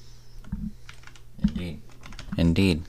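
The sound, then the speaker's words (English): Typing on a computer keyboard: scattered key clicks come in short bursts, mixed with people talking. “I typed in fashion”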